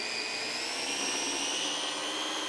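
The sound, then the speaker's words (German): A blender purées blanched spinach with a steady, high-pitched motor whine that stays constant and unbroken throughout. “Ich habe jetzt hier ganz einfach einen blanchierten Spinat und der wird jetzt püriert.”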